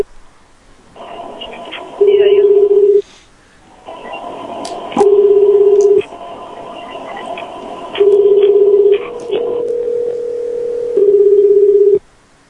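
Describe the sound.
Telephone line tones on crossed lines: four loud, steady beeps, each about a second long, recur every three seconds over a buzzing, clicking line hum. A lower sustained tone sits between the last two beeps.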